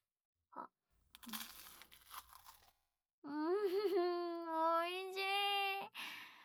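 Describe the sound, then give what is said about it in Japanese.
Crunching of a crispy croissant being bitten and chewed: a short run of crackly, brittle crunches, then a long, sustained voiced tone that rises and falls slightly. “その間に私はクロワッサンを食べるわけです。”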